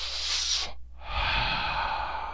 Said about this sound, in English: Anyway, I'm composing myself. Let's take deep cleansing breaths.